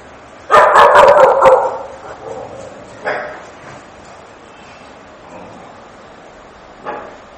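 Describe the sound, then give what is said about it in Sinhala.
Dogs barking outside: a rapid burst of several loud barks comes first, followed by a few scattered, fainter barks and yips over a quiet background. “දැන් බල්ලෝ එළියේ ඉන්නවා කියලා දැනගත්තේ මොකක්ද?”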